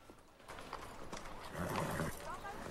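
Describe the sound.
Hooves clip-clop as a horse draws a carriage outside a country house, several sharp irregular knocks against a busy, continuous background of moderate loudness.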